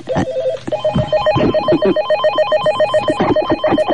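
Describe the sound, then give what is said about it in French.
An incoming call rings on a telephone at a switchboard: a loud electronic warble trills in rapid, evenly repeating pulses and runs continuously from start to finish. “Mais avant, j'ai un coup de fil à passer, ou j'ai reçu un coup de fil. Voilà, je m'approche vers le standard.”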